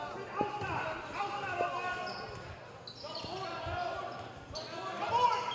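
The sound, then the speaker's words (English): Basketball dribbled up the court in a high-school game between La Salle and Ben Franklin: a few solid, evenly spaced bounces under steady talk from a male commentator. “the point guard dribbles up the floor for Franklin”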